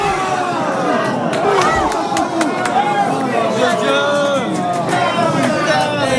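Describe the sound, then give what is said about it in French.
A crowd sings La Marseillaise in chorus in a bar, in front of screens showing a France football match. The massed voices are loud, continuous and enthusiastic, mixed with cheering and hubbub. “Une Marseillaise reprise en chœur devant les trois écrans du bar, avec un léger décalage de quelques secondes pour la télé en terrasse, mais pas de quoi entamer l'enthousiasme du public.”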